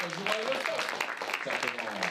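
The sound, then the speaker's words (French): An audience applauds both teams at the end of a match at a First Lego League robotics contest in Delémont, with clapping mixed with cheering voices. “Décompte 3, 2, 1. Et c'est terminé. On applaudit les deux équipes.”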